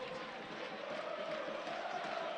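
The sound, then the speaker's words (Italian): Football supporters chant continuously in a stadium during a Modena–Parma match, with the home curve and a large travelling Parma contingent singing. The steady massed voices hold a sustained tone at an even, unbroken loudness. “Continuo e incessante anche il tifo della curva dei padroni di casa, come nel settore ospiti. Canta la rappresentanza foltissima del tifo di Parma.”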